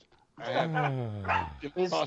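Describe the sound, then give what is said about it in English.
A puppy lets out a drawn-out, whining bark with a sliding, falling tone, followed by a couple of shorter, sharper yips, loud and alone. “Is that Cletus barking? No, Cletus is in the room with Gareth. That's my puppy.”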